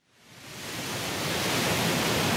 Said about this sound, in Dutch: Met grote kracht stroomt het water hier uit het gat in de stuw bij Graven. Dat zorgt voor flinke golven en grote witte schuimkoppen op het water.